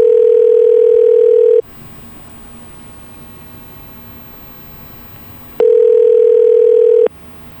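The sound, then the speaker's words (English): A telephone ringing tone on a line with call waiting, heard as two long, steady, loud tones. Each lasts about a second and a half, and a few seconds of faint hiss separate them. “You can hear my phone in the background ringing.”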